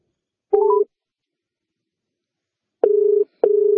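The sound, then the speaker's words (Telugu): Telephone tones as a call is placed to a boy's home: a short beep with rising stepped pitches, then two longer, steady mid-pitched tones separated by silence. “మనం first విజయనగరంలో ఉంటున్న 11 ఏళ్ల P Sai Aditya రామకృష్ణకు phone చేసి తను ఏ పద్యం చెప్తాడో చూద్దాం.”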